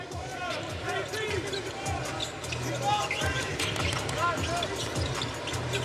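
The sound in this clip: A basketball dribbles on the court during an NBA game involving Sacramento. Repeated bounces thump steadily under a commentator's continuous talk.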